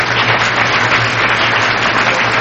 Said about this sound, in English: Okay, well, let's give her a round of applause in any case.